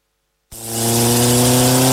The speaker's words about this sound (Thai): เฮ้ยๆขับรถเบาๆหน่อยสิวะถ้ารีบแบบไม่ทันแต่เมื่อวานเลยอะ รถแรงขนาดนี้จะขับช้าไปทำไมเรา